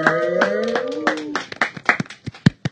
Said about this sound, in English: Everybody, give a warm welcome to Malcolm!